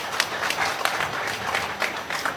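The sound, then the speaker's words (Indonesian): An audience applauds a wayang puppet performance at a wayang festival, with dense, steady clapping that runs throughout at a moderate level. “Tepuk tangan kanggo wayang, tepuk tangan, tepuk tangan.”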